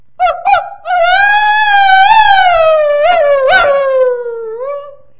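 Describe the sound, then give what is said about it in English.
A person imitates a dog howling, with two brief yelping calls followed by one long, wavering howl that rises and dips in pitch before slowly falling away. The voice is loud and alone. “I need to remember what a howl sounds like. Does it sound like this?”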